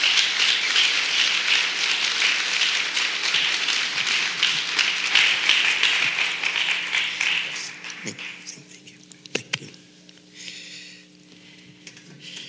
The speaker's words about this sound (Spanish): Un aplauso, por favor.